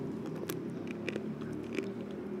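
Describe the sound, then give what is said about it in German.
Someone bites into a wasabi-filled praline in one go, producing several crisp, crunchy bites and chewing over a steady low background hum. “10 Euro, eine Praline essen. Ich bin da kreativ da. Alles schon erlebt. Mit einem Mal essen.”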